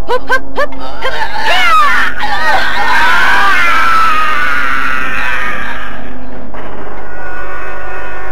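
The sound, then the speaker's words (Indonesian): A long human scream echoes over the hills of Bukit Tengkorak, opening with a few short cries before one loud, wavering, high scream that trails off near the end. “Teriakan panjang menggema di Bukit Tengkorak dan sekitarnya.”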